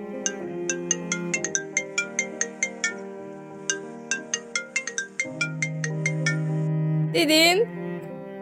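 A phone rings as a call is placed, playing a melodic ringtone of many quick repeated notes over sustained chordal tones. The ring is steady and fairly loud, with no talk over it.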